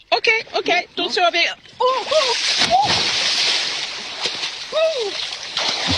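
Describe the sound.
Someone bathing splashes in water with a long, sustained sloshing after a few opening words, and voices talk intermittently over the splashing.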